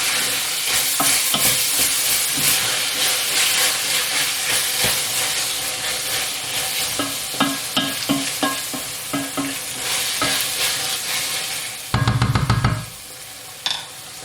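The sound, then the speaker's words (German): Meat, onions and tomato paste frying in lard with a little spice powder: a steady, crackling sizzle with repeated stirring scrapes and clatters, then a louder burst of hissing near the end. “Wir haben das Brutz jetzt hier vor sich hin mit dem Pulverchen drin, dem Tomatenmark, das Fleisch und die Zwiebeln und das Schmalz”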